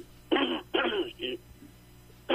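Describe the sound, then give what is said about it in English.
Throat clearing by a person with congestion in the throat, heard over a telephone line: three rasping bursts in quick succession, the last one shorter and weaker, followed by a quiet stretch. “I get the congestion out of the throat.”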